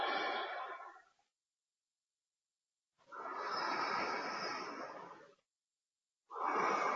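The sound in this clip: Powerful breaths in a guided breathing exercise: long, forceful, airy rushes of breath, each lasting a couple of seconds and separated by silent pauses, the first and last cut off at the edges.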